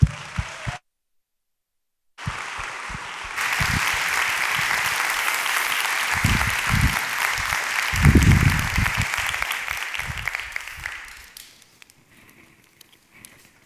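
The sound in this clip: Church audience applause welcoming a speaker to the stage: sustained clapping that swells after a short pause, holds steady for several seconds and then fades out, with brief talk before it.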